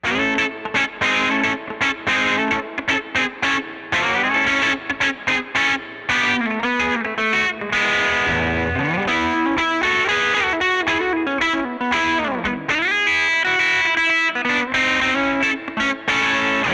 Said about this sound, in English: I'm going to turn up the gain knob on the tube drive so we can hear how much low end and body is actually in the sound of this pedal. It really sounds big with a Stratocaster on the bridge pickup.